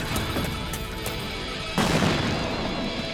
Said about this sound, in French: Je vais leur faire un joli cadeau. Grenade !